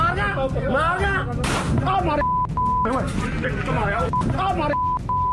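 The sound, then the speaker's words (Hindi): Sharp gunshot bursts ring out during a shooting in Mansa, Punjab, over loud, agitated voices arguing on a Facebook Live stream, with short steady beep tones breaking in at times. “Punjab के मानसा में Facebook live में बहस के दौरान ये गोलीकांड की तस्वीरें।”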